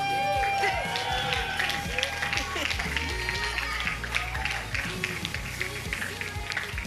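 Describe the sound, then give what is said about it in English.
Children's feet march during a service in many quick, light footfalls, heard under a busy mix of voices and chatter. “And then we're going to blow our trumpets over you. They're marching.”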